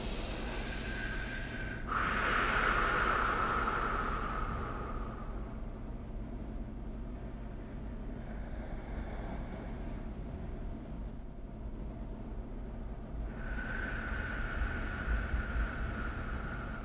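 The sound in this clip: Slow, paced breathing through a heart rate variability biofeedback device, steady and unhurried, with soft airy breaths that swell and fade and no talking.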